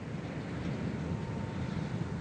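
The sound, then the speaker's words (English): Steady roar of the Space Shuttle Endeavour landing in California: a continuous rushing, wind-like rumble that holds at a fairly low, even level throughout, with no breaks and no voices. “That's the Shuttle Endeavour landing in California yesterday.”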